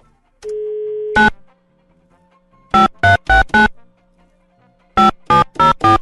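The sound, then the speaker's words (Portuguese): A telephone call being dialed: a steady dial tone gives way to crisp keypad beeps. One beep, then a quick run of four, then, after a pause, another run of four, with no voices. “Pera aí, vou ligar pro Romildo.”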